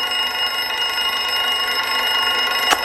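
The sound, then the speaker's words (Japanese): An alarm clock rings on and on, a steady, bright, high-pitched buzzing that holds at an even loudness from start to end, heard alone without voices. “目覚まし”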